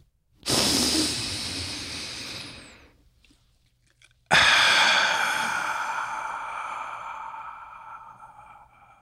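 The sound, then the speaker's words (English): A deep breath: a long, hissing inhale, a short pause, then a sudden, slow exhale that fades gradually over several seconds. “And now, if you're ready, let's take that deep breath.”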